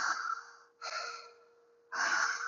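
Deep breathing in a guided breathing exercise: a few long, airy breaths follow one another with only short gaps, soft and breathy, with no talking.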